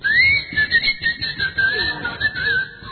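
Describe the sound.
Human whistling directed at a whistle-activated key finder keychain: a continuous, high, warbling whistle that wavers in pitch throughout, over a low rumbling background.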